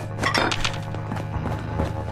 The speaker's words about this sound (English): How come I can't pick up that fork? I can pick up the knife, but I can't pick up the forks?